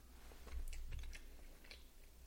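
Soft, faint chewing of a six-to-nine-month aged Gouda made with vegetarian rennet and containing small crunchy tyrosine crystals: a few quiet, moist bites and mashing sounds with no talk.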